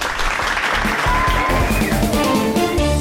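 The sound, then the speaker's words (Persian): Applause greets an award presented to a newspaper, a continuous loud wash of clapping lasting about three seconds. “حالا بزن دست قشنگرو.”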